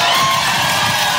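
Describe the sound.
Crowd cheering and whooping with cries of joy at a religious gathering, a loud, dense burst of voices lasting about a second.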